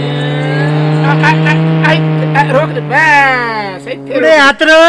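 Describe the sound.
A car engine hums steadily as the car pulls in and stops at a roadside hotel, and voices talk over it toward the end.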